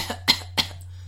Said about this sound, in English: if you're just going to cough, you're just going to